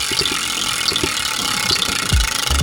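A prize wheel on a game show spins smoothly, as if freshly oiled, giving off a steady run of light ticks over a constant mechanical hum, with a low thud near the end.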